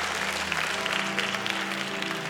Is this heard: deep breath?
no